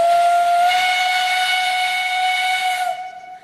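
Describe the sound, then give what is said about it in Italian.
A steam locomotive whistle blows as the pressure valve is opened on an early locomotive: one loud, steady, high-pitched tone with a faint hiss of steam, held for about three seconds before it cuts off and fades. “E questo è il suono caratteristico di quella che è stata chiamata locomotiva e di quando viene aperta la valvola della pressione, suono che è stato chiamato, e ha ragione, fischio.”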